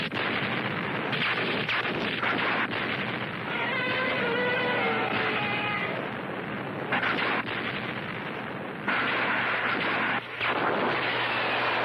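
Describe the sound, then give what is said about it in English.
Heavy gunfire and artillery-like blasts from an ordered military attack form a dense, continuous barrage, with louder bursts surging out of the roar at intervals throughout. “Captain, you'd better give the order to attack. Yes, sir. Open fire!”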